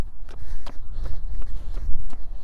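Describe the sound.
Footfalls of a person out on a run, a steady rhythm of soft thuds repeating about every third of a second over a low, rumbling background.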